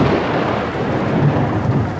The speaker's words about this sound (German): Wenn das Wetter in den Bergen umschlägt, kann es schnell gehen. Prasselnder Regen und starke Windböen sind dann keine Seltenheit.